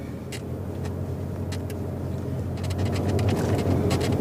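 A car being driven: a steady low engine and road rumble, moderate and unbroken, with a few faint brief ticks above it and no voices.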